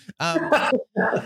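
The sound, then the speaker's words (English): A person clears their throat: a few short, harsh, raspy vocal bursts with brief gaps between them, fairly loud and heard alone. “Excuse me. I'm fine. It was just something in my throat.”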